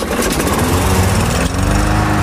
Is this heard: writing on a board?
no